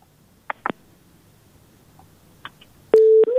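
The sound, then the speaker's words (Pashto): Telephone busy tone after a call is cut off: a few faint clicks, then a steady, loud, low beep near the end with the next beep just starting. “بلی، اړیکه یې پرې شوله.”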